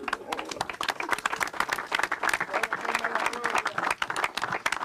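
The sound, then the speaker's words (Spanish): An audience applauds with dense, continuous clapping that swells and dips slightly, and a voice is faintly heard beneath it. “Un aplauso para el viejo Rafa.”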